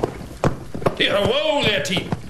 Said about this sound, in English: Yeah, I hear hoofbeats. It's pretty late for a rider.